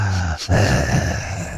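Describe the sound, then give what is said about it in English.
A voice imitates a creepy phone caller's heavy breathing with two loud, breathy, groaning exhales separated by a brief pause. The second exhale is longer and rougher than the first. “when you said Heavy Breathing, I'm thinking about, you know, the creepy callers that you get sometimes, you know, the ones that just sit there and go...”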